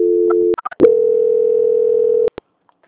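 Telephone line tone during a call transfer: a short steady tone, a few quick clicks, then a longer loud steady tone lasting well over a second, cut off by a couple of sharp clicks before silence.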